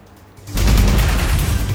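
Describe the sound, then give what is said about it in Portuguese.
An atomic bomb explosion sound effect bursts in after half a second of near silence, a sudden loud, deep blast that settles into a sustained rumbling roar until the end. “Coloque aí, Alexa. Uma bomba atômica.”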